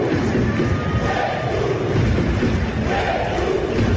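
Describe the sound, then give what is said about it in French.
A loud rugby stadium crowd roars an ovation for La Rochelle player Oscar Jégou at a Saturday night home match. Massed cheering and shouting hold steady and dense through all four seconds. “Oscar Jégou a donc été ovationné par son public samedi soir à La Rochelle.”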